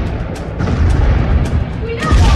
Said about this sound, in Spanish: La nave sigue avanzando, inexorable entre las explosiones impotentes.